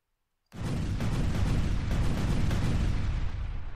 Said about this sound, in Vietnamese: Tiếng nổ vang vọng